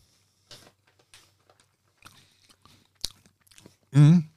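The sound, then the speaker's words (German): Soft, sparse chewing clicks and crunches as someone eats sour barberries, scattered over a few seconds. A loud, wavering voiced exclamation follows at the end. “Das ist sehr säuerlich.”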